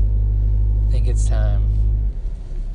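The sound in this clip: Steady low engine rumble inside a car in the morning before the drive to work, with a man talking over it; the rumble cuts away abruptly near the end.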